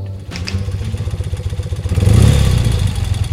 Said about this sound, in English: That sound you hear is a BMW 650 motorcycle.